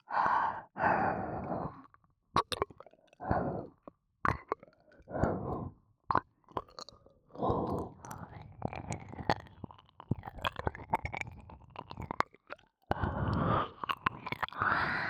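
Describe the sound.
Close, wet mouth sounds for an ASMR roleplay of ears being eaten: soft breathy exhales, chewing-like smacks and sharp lip and tongue clicks in irregular bursts separated by short pauses, with no speech.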